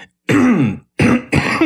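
Harsh coughing and throat clearing, a few loud, raspy, gravelly bursts in quick succession, with short gaps of silence between them.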